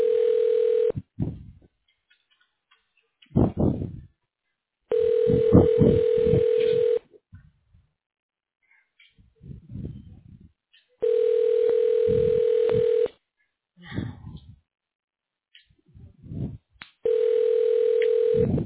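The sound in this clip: Telephone ringback tones as a call is transferred to a radiology department: four long, steady tone bursts at regular intervals, with crackles and muffled sounds in the gaps between them.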